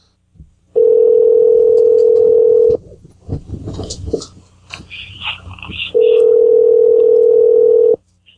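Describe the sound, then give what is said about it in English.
Ringback tone of an outgoing telephone call: two long, steady single-pitch tones of about two seconds each, separated by a stretch of faint, scattered background noise. “I'm going to call her back.”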